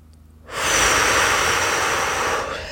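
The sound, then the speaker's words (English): One deep, loud breath drawn in during a guided meditation, a steady breathy rush of air lasting about two seconds before easing off. “Deep breath in.”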